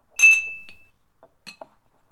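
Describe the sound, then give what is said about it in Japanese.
Glasses clinking in a toast: one bright, ringing clink that sustains and slowly decays, followed by a few faint, short taps, with no voices. “準備ができたら乾杯しますよ。皆さんの健康を祝って乾杯。 乾杯。”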